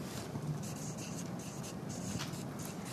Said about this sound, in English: I'll write it right here.